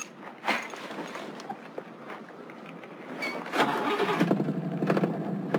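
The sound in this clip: A car engine, a car its owner is devoted to, cranks for a few seconds, then catches and settles into a steady running rumble. It stays fairly faint throughout and is heard alone.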